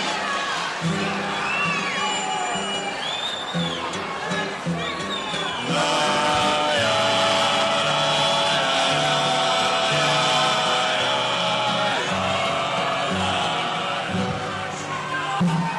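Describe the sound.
A crowd cheers at the Festival da Música Brasileira: a dense, continuous roar of cheering and shouting throughout, swelling fuller after the first few seconds and holding loud to the end.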